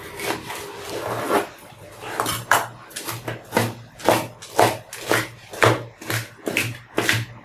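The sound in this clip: Knife cutting food, in a kitchen where pork is being prepared: many fairly regular, crisp strokes with a soft scraping edge, moderately quiet and unaccompanied by talk.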